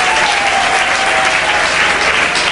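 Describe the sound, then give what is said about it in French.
Steady, loud applause from a church audience during a worship service, a dense, continuous clapping that holds evenly throughout. “Et nous acclamons très fort le Seigneur notre Dieu.”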